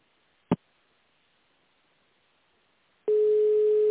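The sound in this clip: Telephone line sounds while a call is being transferred: one sharp click, a short silence, then a steady, loud, unbroken tone that holds to the end.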